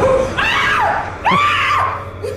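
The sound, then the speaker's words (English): A woman screams during an exorcism: two long, high-pitched, wavering cries with a short gap between them, loud and raw. “he like touches the Bible to her and she goes, ah, that was that sound you just heard.”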